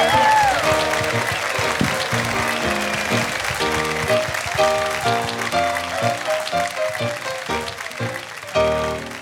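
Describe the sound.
An audience applauds to welcome the satirical musical comedy troupe Capital Steps at a live show, a dense, loud patter of clapping mixed with music that thins toward the end.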